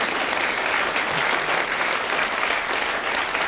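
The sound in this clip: An audience applauds school fellows who support students, producing a continuous, dense wash of clapping that holds at an even level from start to finish with no talk over it.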